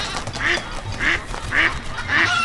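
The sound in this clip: A duck quacks four times in a video game, in evenly spaced nasal calls over a constant background wash.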